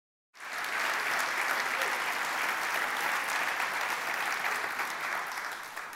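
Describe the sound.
Audience applause welcoming a guest speaker at a church conference: dense, even clapping that starts abruptly and holds loud and steady for about six seconds, easing only slightly at the end.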